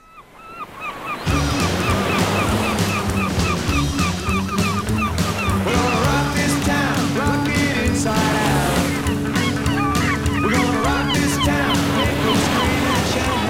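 Beach ambience beside Brighton pier builds quickly into a constant roar of surf, with many sharp bird calls and honks repeating over the wash of the waves.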